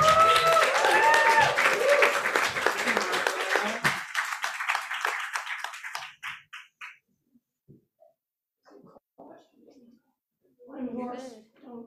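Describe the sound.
Audience applause for an open mic reader: a dense burst of clapping with a voice over its start, thinning after about six seconds into scattered claps, then a short voiced sound at the end.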